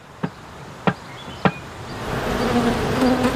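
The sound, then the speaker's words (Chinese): Honeybees buzzing around a hive box set against a sunny cliff face. Three sharp taps come first, then a dense, steady buzz swells and holds to the end. “4个月前放置在这里的一个蜂箱，蜜蜂已经在里面安了家。”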